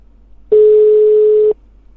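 A telephone ringing tone plays while a call is being dialed: a single loud, steady mid-pitched beep lasting about one second. It starts and stops abruptly against near silence.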